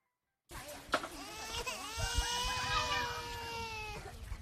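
A two-year-old child crying inside a tent in a refugee camp: a sharp cry breaks out, then turns into a long, sustained, tonal wail that holds steady for a couple of seconds before it trails off.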